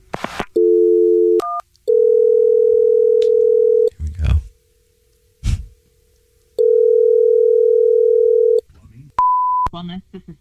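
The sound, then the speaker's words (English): A telephone dial tone and a number being dialed, with long stretches of steady, loud dial tone broken by short tonal beeps and a few low handling clicks, ending on a brief, higher beep. “I'm going to call the place right now.”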